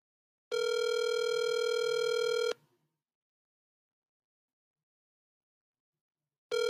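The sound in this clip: A phone call rings out while waiting for someone to pick up: one loud, buzzy ring tone lasting about two seconds, then a long silence before the next ring begins at the very end.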